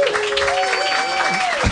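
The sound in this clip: An audience at a comedy roast applauds, a steady, loud wash of clapping with a drawn-out cheer riding above it.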